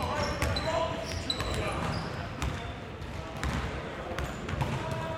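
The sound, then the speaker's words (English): Basketballs bounce on the wood floor of a busy campus basketball court, with scattered sharp thumps and occasional high squeaks over a steady wash of crowd noise and talking. “with players yelling at each other, balls flying at your face, and shoes that continuously squeak against the wood floors”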